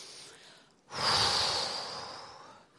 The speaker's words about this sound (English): the air comes in, so you don't have to force it in. So, and feel your body. It should move further than your chest.